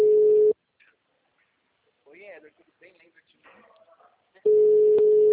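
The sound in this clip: A telephone busy signal sounds while someone is calling, a steady loud tone at the start and again at the end, with faint talk in the quieter gap between.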